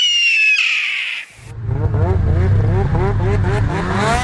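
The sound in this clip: A snowmobile engine revs loudly in winter, its pitch climbing and dropping in a quick, steady rhythm of repeated throttle blips, after a brief high whistling tone at the start.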